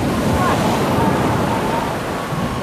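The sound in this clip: A storm at sea: heavy waves and gusting wind roar together in a dense, continuous wash of noise, loud and steady throughout with no break.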